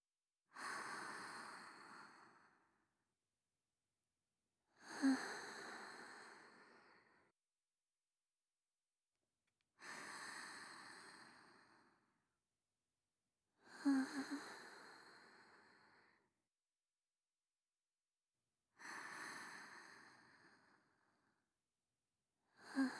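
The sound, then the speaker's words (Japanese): Deep breathing to calm down, with five slow, soft breaths evenly spaced and separated by silence, and another just beginning at the end. “よし、深呼吸をして気持ちを整えよう。”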